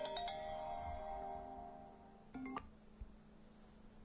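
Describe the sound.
A mobile phone rings with an incoming call, giving a bright electronic chime tone that holds steady, then a short second burst of ringtone notes after a brief pause.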